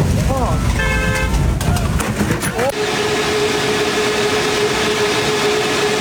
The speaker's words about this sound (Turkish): Uçmamak için verdikleri savaş sırasında yaya geçidinde düşenlere sabırsız sürücü kornasıyla tepki gösterdi.